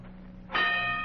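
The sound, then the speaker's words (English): A boxing ring bell rings once to start a fight, giving a bright, sustained metallic tone with ringing overtones that cuts in halfway through, after a quiet stretch over a steady low hum. “There's the bell. His first fight is on. He's in the ring”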